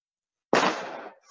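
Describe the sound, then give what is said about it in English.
Fireworks being set off outside: a sudden loud bang bursts out of silence, trailing into a crackling, fizzing rumble that slowly fades, before another burst starts right at the end. “somebody is shooting off fireworks.”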